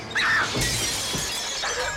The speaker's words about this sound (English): Claudia grabs the back of Lily's head and pushes her face into the mirror